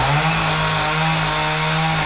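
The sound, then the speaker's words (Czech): A chainsaw carves a large oak trunk into a wooden animal sculpture at a woodcarving symposium held in a zoo. Its loud, steady, buzzing drone runs without pause throughout. “přede mnou pilou opracovává velký dubový kmen, ze kterého za necelý týden vznikne nová dřevěná socha”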